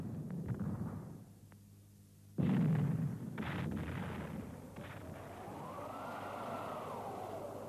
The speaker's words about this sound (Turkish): Toplarla dikine ateş yapıla.